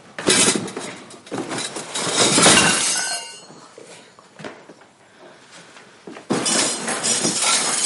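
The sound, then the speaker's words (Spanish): A box of kitchen plates falls to the floor with loud clattering crashes of ceramic. A quieter stretch follows, then another burst of clatter near the end. “Ve un armario de la cocina con platos que está abierto y va hacia él. Aparta una caja y se le cae al suelo.”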